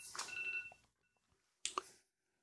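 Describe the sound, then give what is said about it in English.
An alarm goes off with a brief, steady high electronic tone amid noise, then falls to near silence before one short burst of sound. “That's my alarm.”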